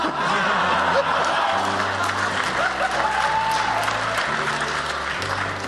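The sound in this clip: Audience applause fills the room with dense, sustained clapping that holds at a steady level from start to finish.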